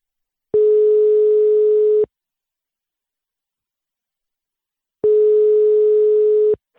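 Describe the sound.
Ringing tone of an outgoing telephone call: two steady, mid-pitched tones about one and a half seconds each, separated by several seconds of silence, with no voices.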